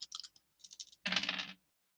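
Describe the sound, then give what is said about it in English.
Dice rolled during a tabletop role-playing game: a quick series of light, sharp clicks, then a short, dense rattling clatter as they settle, with no talk over it. “Here come the dice.”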